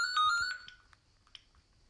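A telephone rings with bright electronic ringtone pulses, a few quick tones near the start that soon fade into quiet.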